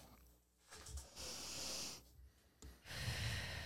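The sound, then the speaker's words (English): Soft deep breathing during guided relaxation: a slow, hissing inhale through the nose, then, after a pause, a long airy exhale through the mouth, both faint, with near silence around them. “taking a deep breath in through your nose, out through your mouth.”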